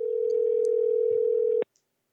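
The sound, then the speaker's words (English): A steady telephone dial tone as a phone call is placed, a single unbroken hum that cuts off abruptly with a click, leaving near silence. “are you ready to make the phone call?”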